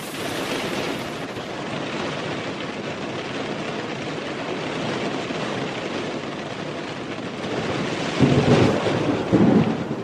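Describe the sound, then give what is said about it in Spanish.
Thunderstorm with steady, heavy rain: a dense, loud hiss of rainfall runs throughout, and deep thunder rumbles swell near the end. “Se escucha chido, ¿no? A mí me gusta mucho la lluvia”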